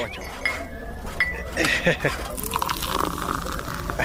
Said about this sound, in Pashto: صبر چې یو پیاله چای درته واچوم چې سره شوی به ته